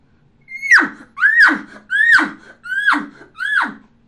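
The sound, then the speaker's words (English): Five elk grunts imitated by a man's voice without a calling tube, each a raspy call that rises then bends sharply down in pitch, spaced in an even cadence with short gaps between. “Now I'm going to grunt at the end of the tube. And that grunt sounds like this. Just elongate it. Without the tube, sounds like this.”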